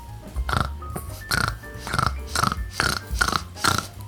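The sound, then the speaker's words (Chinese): A mother pig and ten piglets grunt and oink in many rhythmic, lively bursts that repeat steadily throughout. “不远处传来了热闹的嘟哝声。来到包包店的是带着十只小猪的猪妈妈”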